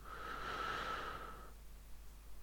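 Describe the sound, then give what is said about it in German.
A deep breath: one long, full rush of air lasting about a second and a half, then fading to near silence. “Ja, und ich lade dich ein, mal ganz tief durchzuatmen, wie ich es gerade gemacht habe.”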